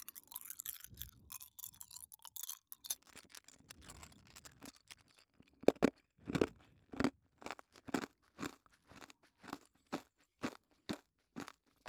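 Someone is chewing and crunching a sweet snack with many crisp, brittle bites. The sound is quiet and irregular at first, then settles into a steady rhythmic series of sharp crunches toward the end.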